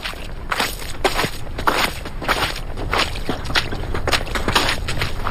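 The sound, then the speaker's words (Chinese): Footsteps tramping along a muddy, snow-covered road on a snowy night: a long, steady run of soft, quick steps over a constant background hiss, with no talking. “雪依旧下着，泥泞的路上奔波的脚步不得不慢下来。”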